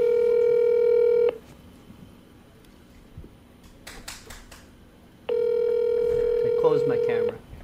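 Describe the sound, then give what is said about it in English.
Telephone tones sound as a call is placed: two long, steady electronic tones separated by a quieter gap with brief talk, and the second tone overlaps a voice near its end. “We're doing a phone call.”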